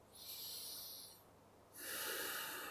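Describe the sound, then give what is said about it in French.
Deep breathing through the nose during a guided relaxation exercise: one long, soft, airy inhale, a short pause, then a longer, fuller exhale, alone without talk. “vous commencez par prendre quelques grandes respirations. Avec le nez, expirez avec le nez.”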